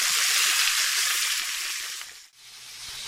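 Salmon fries in a pan with a steady, bright sizzle and hiss that slowly eases toward the end, broken by one brief dip before the crackle resumes, quieter.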